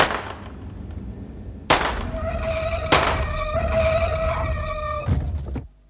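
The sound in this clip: Gunshots fired at the tyres of a fast car during a chase, a few sharp, loud cracks spaced apart, with a steady tonal drone sustained between them and a low rumble underneath.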